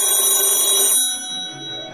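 A telephone rings and goes unanswered: a loud, steady electronic ring tone holds for about a second, then cuts off into a quieter lingering tail.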